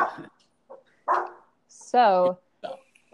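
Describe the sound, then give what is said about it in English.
A pet dog gives one sharp, high, ringing bark or yelp amid people talking nearby. “Oh, that's my dog. Can we hear my dog?”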